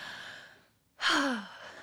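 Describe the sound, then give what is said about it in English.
A deep breath: a soft airy breath fades into a moment of near silence, then a loud, voiced, sighing exhale bursts out with a clearly falling pitch and trails off. “So I'm going to take a deep breath and give one more take of that”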